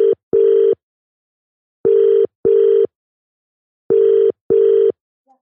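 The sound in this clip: Ringback tone of an outgoing call to the UK: three steady double-pulse rings at an even pitch, separated by silent gaps, with no talk over them.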